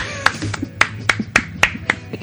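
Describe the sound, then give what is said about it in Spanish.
Hands clap in applause: a few sharp, uneven slaps, some louder than others, across a couple of seconds. “Un aplauso.”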